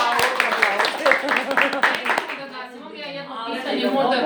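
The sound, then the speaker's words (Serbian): Audience applause after a lecture: a run of brisk hand claps fills the first half, mixed with voices, then fades as people start talking. “Da li neko ima pitanje posle ovog prelepog predavanja? Ajde, aplauz za”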